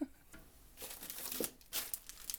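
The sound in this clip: Crinkling and rustling as packaging around an iPad sleeve is unwrapped, in several soft, quiet bursts with no talk.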